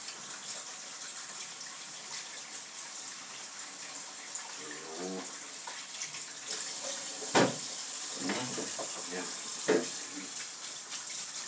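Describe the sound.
Ripe aroma tomatoes are rinsed under running tap water. The soft, continuous hiss of the stream is joined by scattered light splashes and two louder knocks.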